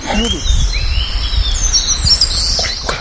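Eastern crowned warbler song: thin, high chirping phrases repeat over a steady low rumble.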